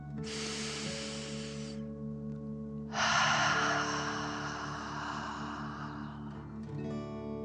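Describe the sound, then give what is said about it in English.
Deep breathing, drawn in through the nose and out through the mouth: a soft breathy rush followed by a longer, stronger airy exhale, over steady sustained musical tones. “breathe in through your nose and out through your mouth, pretending you are breathing fire. deep breath in and out.”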